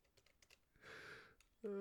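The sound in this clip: Typing on a computer keyboard: a quick run of faint key clicks, then a brief noisy burst before a voice begins.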